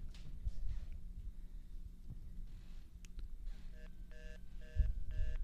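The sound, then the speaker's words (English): Telephone keypad dialing tones sound as a few short, clean dual-tone beeps near the end. They come over a low, murmuring rumble of background noise, and no one speaks. “Okay, I'll do one more and I'll try a different way of dialing it.”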